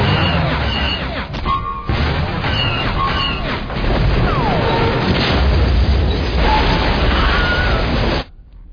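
Artillery batteries fire during an attack in heavy, overlapping booming blasts that form a dense, loud, continuous roar. Sweeping higher tones and crashes cut through it before everything stops abruptly near the end.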